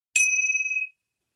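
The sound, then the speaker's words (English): Small gold Tibetan chimes struck together once, giving a single bright, high, clear ring with a shimmering overtone that fades out in under a second, heard alone. “These are Tibetan tinctures. They're just little gold chimes. You just bring them together and ring them.”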